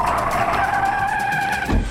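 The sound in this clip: A racing car skids, its tires giving a sustained, loud screech with steady whining tones, and a low rumble swells near the end.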